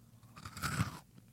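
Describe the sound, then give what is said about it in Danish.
Biting into a chocolate chip cookie: a single short, faint crunch of chewing that rises and dies away within a second. “Tænker jeg, som bare hader at høre, at de hører os sidde og spise en lille cookie.”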